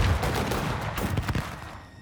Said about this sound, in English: Reload! One of the gunslingers calls, and a moment later the gun starts up again.